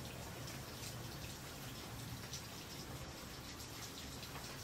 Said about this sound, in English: sometimes it may not cover the rain if the wind's blowing. I'm thankful for the rain.